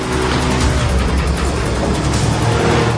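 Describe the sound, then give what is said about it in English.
Engine roar from an old red truck chasing a rusty green truck down a dark country lane: a loud, unbroken, steady drone of hard-driven engines. “climbs into his rusty green truck, and tries to escape. Three hooded men jump into an old red truck and give chase.”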